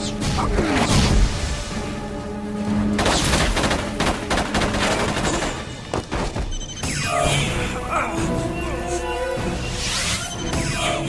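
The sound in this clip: Sci-fi energy weapon fire from a staff weapon and zat guns: several sharp blasts and swishing sweeps within a busy, loud action soundtrack, with bursts scattered unevenly throughout.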